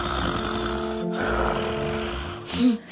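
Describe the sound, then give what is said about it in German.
Breathing in through the mouth: a few long, steady, rushing breaths with a rough, snore-like texture, fairly loud throughout and briefly louder near the end. “Ich atme halt durch den Mund ein und dann halt durch den Bauch halt sozusagen.”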